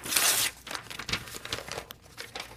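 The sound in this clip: A paper envelope is torn open. A loud crinkling rip at the start gives way to scattered softer rustles and crackles of paper.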